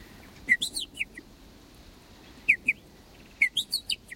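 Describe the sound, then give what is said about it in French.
Blackbird chicks, four or five young that have left the nest, call to be fed with short, high, thin chirps in three quick bursts separated by brief pauses, faint and alone. “Donc les merles, les 4 ou 5 petits qui sont dans le nid, quittent le nid avant d'être émancipés. Ils disent, en fonction du cri, de la répétition de ce cri, du rythme du cri, ils indiquent leur envie de manger.”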